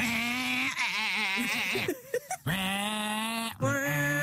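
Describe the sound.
A voice imitates a boy racer's car with two sustained, buzzy vocal bursts whose pitch wavers up and down like an engine revving, split by a brief choppy break.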